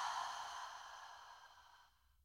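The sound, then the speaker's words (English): A long, slow exhale during a guided calming breathing exercise. A faint, soft, breathy hiss holds steady, then fades away over about two seconds. “Let's breathe in. Hold. Breathe out.”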